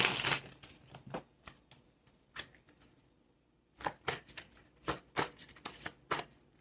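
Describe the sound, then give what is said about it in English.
Shuffling a deck of cards, quiet and crisp. Quick riffling bursts and flicks are followed by a short pause, then several more riffles. “I want to do another shuffle again.”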